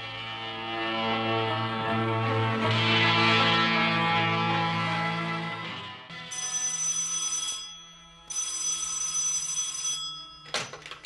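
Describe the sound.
A home telephone rings in two long, bright bursts after a sustained musical tone fades out.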